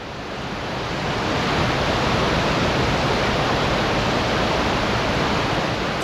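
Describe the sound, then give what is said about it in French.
Water rushing in a mountain torrent in the Andes, a dense, hissing roar that swells over the first second and then holds steady and loud. “le bruit de l'eau qui s'écoule dans le torrent empêche toute communication.”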